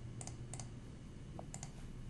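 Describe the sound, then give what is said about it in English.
Faint typing on a computer keyboard as a short word is entered: a few soft, sharp key clicks, mostly in quick pairs, over a low steady hum. “I'm going to go ahead and type food again.”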